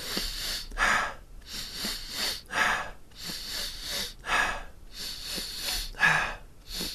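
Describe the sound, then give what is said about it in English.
Deep breaths drawn in and let out during a breathing exercise, a steady run of many airy, hissing breaths in an even, repeating rhythm, clear and alone with no talk. “So, by the time you get to your third breath, you want to feel like you're pretty full. So, you're taking like really nice big breaths in.”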